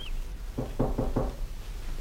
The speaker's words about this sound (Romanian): Bate cineva în ușe